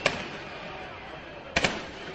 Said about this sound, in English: Just a couple of 10 seconds ago, a minute, a massive volley of tear gas from the police in that direction.